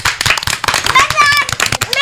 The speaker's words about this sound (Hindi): वाह शाबाश, बजाओ इसी बात पर ताली।